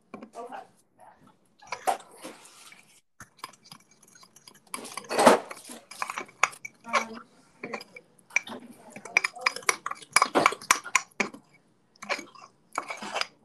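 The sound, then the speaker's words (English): A fork clinks and scrapes against a bowl while mixing cookie batter with chocolate chips, a busy run of many quick, uneven taps and scratches with short pauses in between. “Now you're gonna mix it up, like really well. This is why I use a fork, because it kind of like breaks up all the little bits of dry ingredients.”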